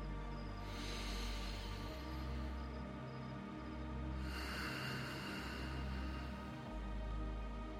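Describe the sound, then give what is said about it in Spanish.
Slow, deep breathing during a meditation: two long, airy breaths swell and fade over a steady low humming drone, with no talk. “Respira.”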